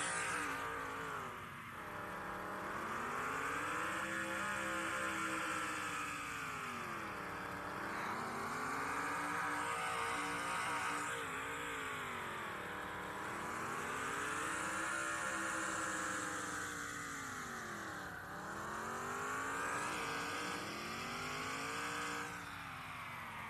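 Race car engine revving in an augmented-reality racing video game: a loud, steady synthetic engine whine whose pitch sweeps up and down in about four repeated cycles, without pause.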